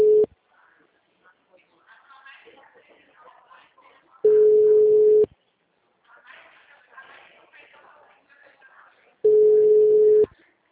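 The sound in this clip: Ringback tone of an unanswered phone call: three steady one-second beeps spaced about four seconds apart, with people talking quietly in the gaps between them.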